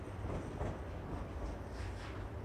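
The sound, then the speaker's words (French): Faint, steady ambience of a train station's main hall beside the tracks, which lie behind a glass wall: a soft, even rumbling wash of background noise with no distinct events standing out. “Vous devez être maintenant dans le hall principal de la gare. À votre droite, l'espace vente avec le panneau d'information des trains au départ. En face de vous, un ascenseur. Et derrière le mur de vitre, les voies.”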